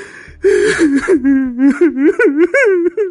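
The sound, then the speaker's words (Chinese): An adult voice imitates a small child's crying, producing loud, wavering sobs. The sobs break into short, gasping bursts with quavering pitch in a rapid, uneven rhythm. “据医生的描述啊，那哭的是要多伤心有多伤心啊。我给各位学一个啊，但要学的不好，你们别骂我啊，毕竟我不太会哭啊”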